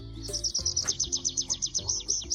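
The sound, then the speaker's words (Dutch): Birds chirp in a forest at the Heumensoord nature area near Nijmegen, with a rapid, evenly spaced run of many high, bright chirps over a low background rumble and no voices. “Vogeltjes, bos.”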